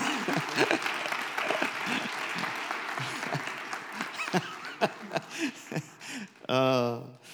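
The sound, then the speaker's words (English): An audience claps steadily to welcome a speaker at a Christmas-season gathering. The applause slowly thins while a voice talks over it and then speaks alone at the end. “Hey, would you give a big welcome, a big hand?”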